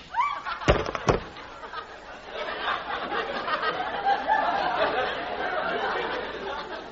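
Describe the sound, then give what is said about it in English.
Two sharp gunshot bangs ring out in quick succession in a Western-themed radio drama, followed by a steady murmur of chatter and laughter. “Klondike Annie, you shot Sal right in the cold blood.”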